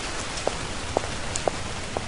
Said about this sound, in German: Es regnet in Strömen.